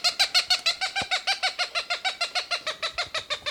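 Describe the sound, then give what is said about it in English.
An excited Cooper's Hawk near a nest gives a rapid, evenly spaced run of many harsh, nasal cackling calls, loud and regular from start to finish. “Cooper's Hawk, very excited, must be near a nest.”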